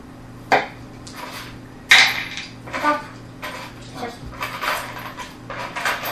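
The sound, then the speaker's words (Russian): Three dice thrown onto a surface during a tabletop role-playing game, sharp clattering impacts followed by rattling and tumbling, loud at first and settling into lighter knocks. “Ты брось мне три кубика, пожалуйста.”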